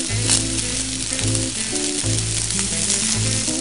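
Vegetables and rice fry in a pan with a loud, continuous sizzle that stays steady throughout, with no talking.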